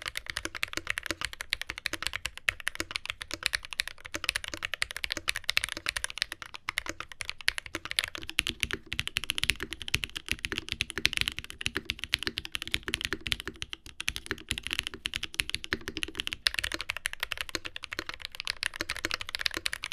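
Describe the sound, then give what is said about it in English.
Steady, rapid typing on a NovelKeys NK87 aluminum TKL mechanical keyboard: many crisp keystrokes with a faintly hollow character, continuous for the whole stretch with no voices. “So I do like the sound of this board. It does have just a little bit of hollowness to it, but it's not anything that really takes away, and I don't hear anything negative. I think it's got a nice character. The typing feel itself is very similar,”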